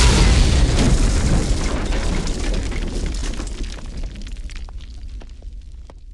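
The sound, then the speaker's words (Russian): A heavy explosion rocking a ship: a loud, broad, rumbling roar that slowly fades over several seconds, with scattered crackles toward the end. “Судно сотрясло от дикого взрыва.”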